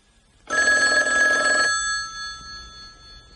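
An old-style telephone bell rings once in a bright, loud burst of about a second, and the metallic tone then fades away. No voices are heard.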